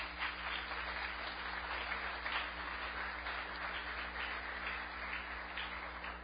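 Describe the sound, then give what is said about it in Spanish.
A church audience applauds, a steady wash of many hands clapping that holds at an even level for several seconds, with no talk over it. “Dale ese aplauso fuerte al Señor.”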